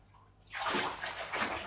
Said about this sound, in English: Splash it around now. Shake it in the water like that.